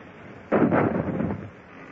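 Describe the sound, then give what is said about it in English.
A single cannon shot from a sailing warship: a sudden muffled boom that rolls into a short rumbling decay and fades within about a second. “Gunlayers, change point of aim. Fire into our rigging. Ready? Fire!”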